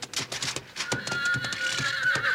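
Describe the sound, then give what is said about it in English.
A horse neighs in a western drama, a long, loud, shrill whinny that rises over steady noise, with hoof clops beneath. “That horse might be your grandpa.”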